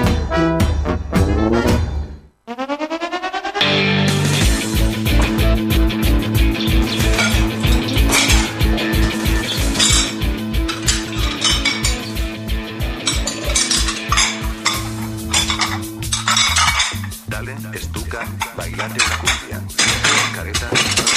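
Kitchen clatter of dishes, pots and cutlery, clinking and rattling loudly and almost without pause over a steady rhythmic beat, with a brief near-silent break early on.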